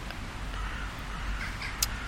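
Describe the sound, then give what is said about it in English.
Crows cawing near their nests in a stand of trees around dusk: a few faint, hoarse caws rise over a steady low outdoor background. “I know these crows, right? So there's a whole selection of trees, and the crows all have their nests up there.”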